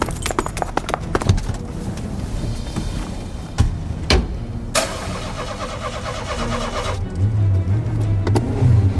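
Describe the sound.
A car engine turns over and catches, then revs louder as the car pulls away. A few sharp knocks sound before the engine starts.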